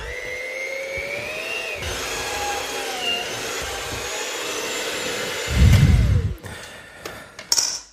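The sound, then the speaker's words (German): An electric mixer beats dough into a smooth, even mass with a sustained, steady motor whine and hum. A louder rumbling stretch comes near the end before the motor cuts off, followed by a few light clatters. “So, jetzt weiter mixen, bis das Ganze eine gleichmäßige glatte Masse ist.”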